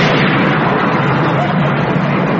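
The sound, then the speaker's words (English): Thunder rolls as a loud, continuous rumbling roar that stays dense and even from start to finish, with no clear break. “It's all right. It's all right. It's not a bomb. It was thunder.”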